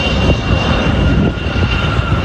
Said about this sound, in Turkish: pilot uçağı kontrollü şekilde alçaltarak piste getirdi ve beklenen an.